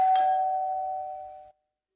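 A single electronic doorbell tone sounds once with a bright, clear ring, then decays steadily for about a second and a half before cutting off abruptly into silence.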